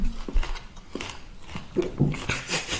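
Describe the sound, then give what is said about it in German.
Someone eating bread: soft, irregular biting and chewing noises with a few small crunches and clicks, fairly faint and uneven in rhythm, with no voices. “Mich verschluckt. Ich habe Brotling verschluckt.”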